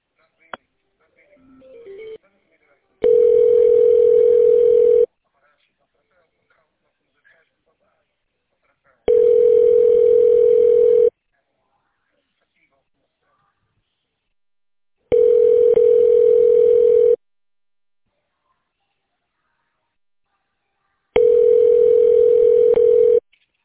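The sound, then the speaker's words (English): Telephone ringback tone during a call transfer: four steady, even-pitched rings of about two seconds each, separated by roughly four-second silences, with faint rustling before the first ring. “Give me one moment. Okay. I'm going to transfer you now.”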